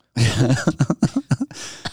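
A person imitating a sick ferret sneezing and coughing: a rough, breathy burst, then a rapid series of short, sharp coughs, and a final longer wheeze.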